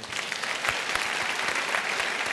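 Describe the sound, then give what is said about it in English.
Steady audience applause at a live debate event: dense, even clapping that holds at a constant level throughout without pause. “Can you give me another round of applause?”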